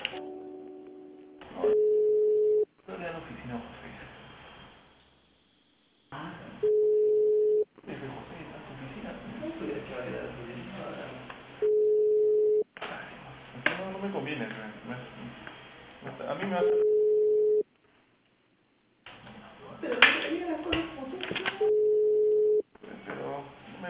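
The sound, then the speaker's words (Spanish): Telephone line tones as a call is transferred to extension 106: five long, steady beeps at regular intervals, each about a second, between louder stretches of other line audio. “Te transfiero a la anexa 106, ¿sí? Para que te puedan ayudar.”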